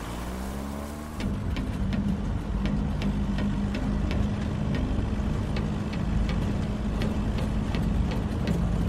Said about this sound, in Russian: Разворачивайся, говорю, домой, пацан. Машина действительно разворачивается.